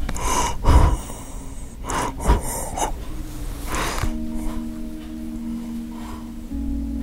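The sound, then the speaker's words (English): Labored breathing of a dying 94-year-old man with end-stage congestive heart failure, at the bedside in a nursing home: a few rough, gasping breaths over steady background noise, with a low electrical hum entering partway through. “You can probably hear him breathing here in the background.”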